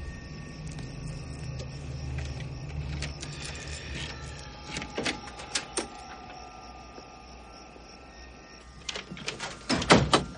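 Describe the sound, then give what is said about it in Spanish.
A house front door opens with faint clicks and knocks of latch and handle scattered over a low, steady hum. A louder clatter comes near the end. “abre la puerta de su casa y accede al interior.”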